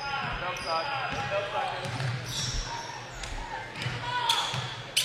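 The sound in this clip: A basketball is dribbled on a court during a game, producing a series of repeated low thuds under ongoing commentary.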